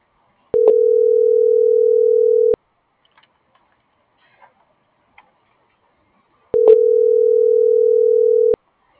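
A telephone dial tone sounds as a number is redialed: two steady, mid-pitched tones, each about two seconds long. A few faint clicks fall in the gap between them, and there is no talk.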